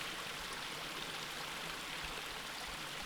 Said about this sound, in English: the only sound you hear is the echo of your voice and the sound of the creek trickling over rocks.